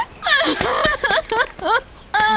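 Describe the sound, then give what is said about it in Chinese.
A woman cries in a grieving scene of a Chinese costume drama, giving several short, wavering, pitched sobs and wails that break off and start again. “夫人，你别哭啊”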